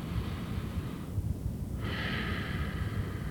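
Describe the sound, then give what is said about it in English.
A slow, deep breath in and out during a guided meditation, a soft, airy rush over steady background hiss, with a brief lull between the inhale and the stronger exhale. “Take that nice deep breath again. You want to take a real nice deep breath.”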